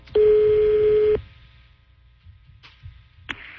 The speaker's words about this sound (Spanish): ¿Cómo se llama el negocio? Ponle ahí, ¿cómo se llama? Estoy marcando.